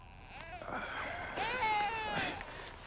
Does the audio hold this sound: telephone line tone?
no